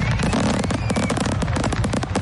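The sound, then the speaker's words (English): Fireworks at New Year's celebrations in the United States: dense, loud crackling and popping, with many rapid bursts overlapping into one unbroken roar and no pauses throughout. “Millions of people around the world rang in the new year with fireworks and celebrations”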